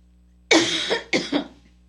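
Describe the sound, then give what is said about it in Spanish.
Two hoarse coughs come from a preacher mid-sermon, each a harsh burst followed by a smaller second hack, over a low steady hum. “Perdónenme si sigo tosiendo, pero Dios me ayude.”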